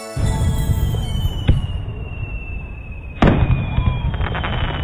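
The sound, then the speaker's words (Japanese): Fireworks explode at a fireworks festival: two sharp, loud bangs a couple of seconds apart, with crackling bursts trailing after the second one. “見てすごい、こんな特等席からの花火なかなか見られないよね。”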